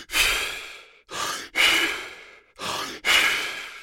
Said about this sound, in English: The first one is a breathing method where you learn to hold your breath for an extended period of time. And you do that by hyperventilating, or what they call it, superventilating. It sounds like this.